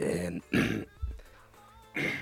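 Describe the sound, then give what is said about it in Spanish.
A person clears their throat a few times in short, raspy, guttural bursts separated by brief pauses, ending with a last rough clearing. “Que nos arreglemos la garganta, que todavía no hemos hablado esta mañana con nadie, es el silencio post nocturno.”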